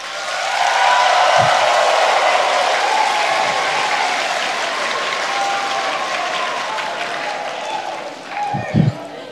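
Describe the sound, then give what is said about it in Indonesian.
An audience at an official ceremony gives loud, sustained applause for the Governor of North Maluku. The dense clapping lasts about nine seconds and gradually eases, with a few dull thumps near the end. “Kok tepuk tangannya paling keras? Pemilu masih lama.”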